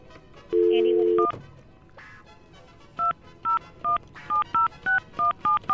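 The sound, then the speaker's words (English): Telephone dialing tones as a caller dials in to a call-in contest: a steady dial tone comes first, then after a pause a quick run of many short touch-tone key beeps, crisp and evenly spaced. “You dial, son. You dial like the wind.”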